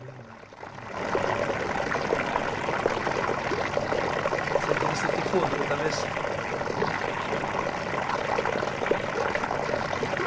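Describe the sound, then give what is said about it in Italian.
Water in a cistern tank, captured on a decades-old portable tape recorder: a continuous rushing trickle that starts a little quieter, then holds at an even, full level with no breaks. “E questo è il rumore dell'acqua della cisterna che io tanti anni fa con il registratore portatile l'ho messo sopra la vasca, ho registrato sto rumore”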